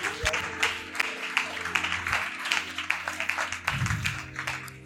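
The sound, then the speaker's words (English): Audience applause rewards a question during a talk on courtship and relationships. The clapping is dense and steady for about five seconds, with a low hum underneath. “I love this question. Let's clap for him.”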